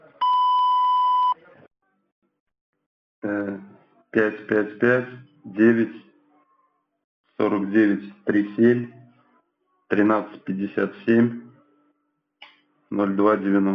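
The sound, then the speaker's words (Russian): A bank's automated phone system gives a single steady electronic beep lasting over a second. After a pause, a voice speaks in short bursts. “После сигнала произнесите номер карты.”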